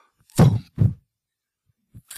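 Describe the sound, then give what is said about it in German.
A voice imitates the blast of a far-off hail cannon, a chimney-like pipe fired against gathering hail clouds to send out pressure waves: two short, deep booming bursts close together, a pause, a soft thump, then another loud burst. “gibt's solche Kaminrohre, die Druckwellen erzeugen und wenn sich so Hagelwolken anbahnen, dann wird gegen den Hagel geschossen und dann hörst du so aus 3, 4, 5 Kilometer Entfernung so ein”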